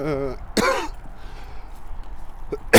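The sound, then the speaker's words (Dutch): Harsh coughing from a person at a camp, a rough burst following a brief moment of speech, then a faint cough and another sharp burst at the very end. “Sorry, ja, ik hoest een beetje.”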